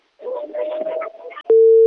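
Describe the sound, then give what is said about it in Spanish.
A phone's call-waiting tone signals another incoming call: a loud, steady single-pitched tone starts abruptly after a short muffled passage and holds unbroken to the end. “ahí al fondo se escucha que está entrando otra llamada”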